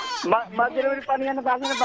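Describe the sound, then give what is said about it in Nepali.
A goat bleats in a quick run of wavering, nasal cries, loud and closely spaced, each rising and falling in pitch, with no other sounds between them. “यो बाख्रा लिएर कहाँ आउनु भएको तपाईँ? भेडा पाठा बोकेर के गर्नु?”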